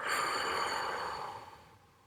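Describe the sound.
A deep breath in during a guided breathing meditation, a quiet, soft airy rush that holds steady and then tapers away over about two seconds.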